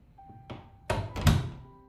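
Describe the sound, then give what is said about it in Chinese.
A bathroom door opening, a light knock-like tap followed by two duller thumps of the door, fairly quiet and with no voices. “没想到听到了浴室的开门声”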